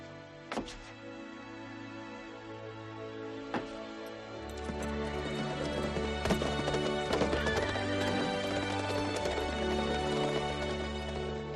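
Horses gallop away, their steady clip-clop hoofbeats and a few whinnies riding over orchestral music that swells fuller partway through.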